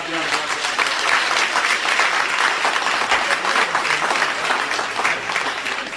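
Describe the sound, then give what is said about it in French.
Applause from a church audience for the choir singers, dense steady clapping that carries on evenly throughout. “nous avons nommé les choristes. Et je vous demande d'acclamer.”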